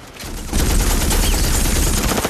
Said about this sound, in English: Hearing the commotion, Dr. Silberman goes to investigate and watches the Terminator slowly turn towards the police and begin firing his huge machine gun.